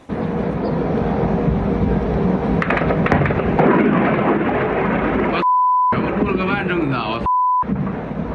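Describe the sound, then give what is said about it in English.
Explosion at an oil refinery after a drone strike: a loud, sustained roaring rumble with crackling bursts, under people talking, with two short high censoring beeps near the end. “this key oil refinery, less than 10 miles from the Kremlin, was damaged with the roof of one structure blown clean off. Watch this.”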